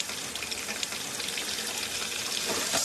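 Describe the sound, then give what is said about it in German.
Water running from a tap, laden with natural gas from shale drilling and set alight with a lighter, gives a steady rushing, sizzling hiss that grows slightly louder toward the end. “Im Film, der sich mit den Umweltfolgen der Tiefbohrtechnik befasst, hält ein Betroffener ein brennendes Feuerzeug an einen laufenden Wasserhahn.”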